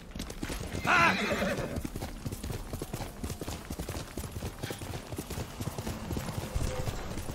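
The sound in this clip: Horse hooves clip-clopping in a steady rhythm, with one loud neigh near the start, then the hoofbeats continue alone at an even pace.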